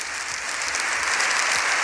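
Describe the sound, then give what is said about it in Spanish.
Long, sustained applause from an audience in a parliamentary chamber for the Pope, a dense, even patter of many hands clapping that holds steady throughout, with no voices over it. “Un minuto largo, ya pasa del aplauso.”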